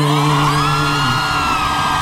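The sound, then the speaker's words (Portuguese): Loud audience cheering and whooping at the close of a live song performance. Sustained voices carry held tones throughout. “Uma salva de palmas”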